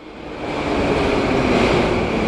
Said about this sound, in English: A morning train pulls into Begovaya Station in the Moscow underground